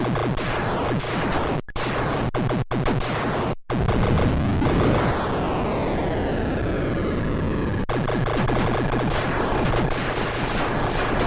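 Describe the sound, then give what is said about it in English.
Bleeps, zaps and explosions from the arcade video game Tempest form a loud, dense electronic cacophony of rapid gunfire-like bursts, with a long falling sweep in the middle and a few brief gaps. “Those bleeps, bloops, blops, and otherwise exploding noises were from our favorite knob-spinning vector graphics marvel, Rotary Encoders for the win.”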